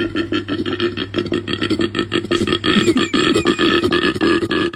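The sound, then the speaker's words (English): A koala's mating call, a loud, rasping bellow of rapid grunting pulses with a deep snoring, belching quality, continuing throughout without pause. “G'day, mate! It's a kangaroo! No, koala.”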